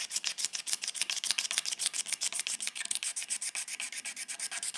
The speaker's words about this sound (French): avec une petite lame de rasoir. Ça déjà, c'est tout bête, mais ça permet un peu d'ouvrir le port du bois. Là, j'enlève un petit peu la petite couche de crasse qui est là depuis assez longtemps.